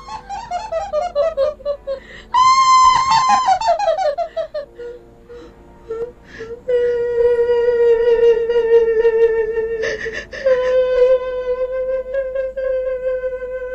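A woman laughs maniacally and screams at night: loud, high-pitched voiced cries with a wavering pitch, including falling laugh-like runs early on and long, drawn-out wails afterward.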